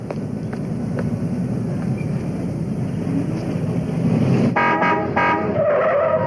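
A car driven by a learner skids to a stop, a long rushing tire skid over engine noise that turns into shrill tonal squeals near the end.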